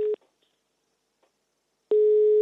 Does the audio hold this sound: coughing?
no